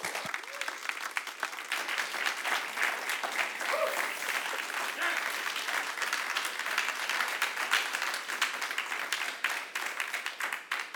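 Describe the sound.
Sustained applause from a morning church audience welcoming a guest speaker, dense and even clapping that continues without a break for about eleven seconds.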